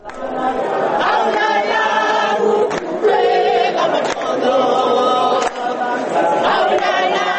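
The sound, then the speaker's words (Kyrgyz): Local people sing a mourning song in front of a stadium in South Africa to honour Nelson Mandela: many voices in loud, sustained, harmonised chant, steady with a few brief pauses, crowd noise mixed in. “Стадиондун алдында жергиликтүү эл аза ырын кошууда.”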